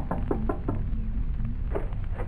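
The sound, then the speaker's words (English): Knuckles rap on the door of a house in a small Dutch town: three quick, sharp knocks, a pause, then a couple more, each crisp and hollow over a low steady background hum. “Suddenly, he stops before the door of a house and knocks.”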